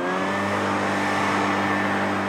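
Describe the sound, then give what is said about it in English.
Street sweeper with rotating brooms and a vacuum, working an early-morning cleanup shift on a city street, produces a steady, loud engine drone with a constant low hum under a broad roar that holds level throughout. “So the blower will blow the litter out into the street. The brooms will catch the litter and push it up underneath the vacuum so it sweeps”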